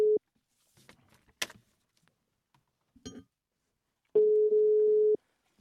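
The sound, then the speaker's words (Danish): A telephone tone plays while a call is being placed: a brief steady beep, then a few faint clicks and clinks, then a longer, loud, level tone lasting about a second. “ring til Preps”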